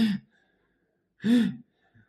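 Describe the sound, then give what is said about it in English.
A voice imitates the strained breathing of a patient in acute pain: two breathy, groaning breaths, a short one followed after a pause by a longer, louder one, with silence between. “quite often you'll hear their breath in these acute presentations. So the person will be”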